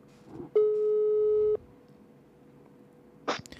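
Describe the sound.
A telephone busy tone on an outgoing call, heard as a single steady beep lasting about a second, faint and otherwise surrounded by near silence.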